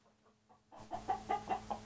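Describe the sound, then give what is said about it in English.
Hens cluck in a quick run of short, clipped calls that begin abruptly after a near-silent start, the whole passage fairly quiet. “Why don't you go to the hens and collect the eggs?”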